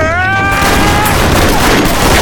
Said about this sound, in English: came storming across the room, firing away.